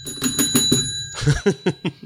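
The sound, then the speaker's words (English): A small bell struck rapidly a few times, its bright metallic ringing tone sustaining between strokes before fading, with voices following. “What does the bell signify?”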